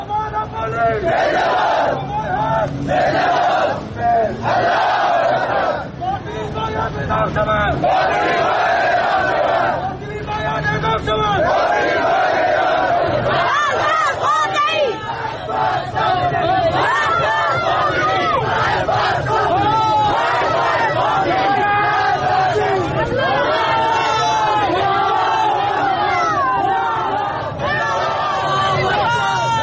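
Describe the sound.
A crowd of protesters chants in a street protest in the town of Rast, Iran. Many voices shout loudly in rhythmic bursts that keep going throughout, with crowd noise between the chants.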